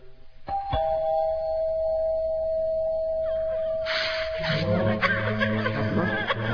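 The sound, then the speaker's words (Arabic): A house doorbell rings once with a clear electronic tone that holds for about three seconds, followed by chuckling and laughter. “ندق الجرس. بسم الله.”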